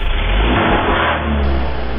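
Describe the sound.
A car engine revs loudly and steadily as the car pulls away, with a dense, roaring drone that holds for about two seconds without any talking.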